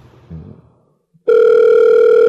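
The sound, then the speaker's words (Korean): A telephone ringing tone plays as a call connects: a single loud, steady mid-pitched tone lasts about a second after a short, quieter low sound. “전화 연결 가네요. 벨렐렐렐레. 전화 연결은 가고 있고요.”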